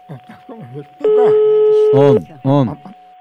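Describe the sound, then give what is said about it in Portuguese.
A telephone tone as a call is being placed, held steady for about a second, while people talk around it. “Eu vou ligar agora.”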